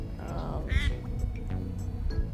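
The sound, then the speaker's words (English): A couple of ducks quack as they fly over, giving a few short, nasal calls. The calls are faint and partly buried under people talking. “Oh, cool. Got a couple ducks. Flew over us. That was cool.”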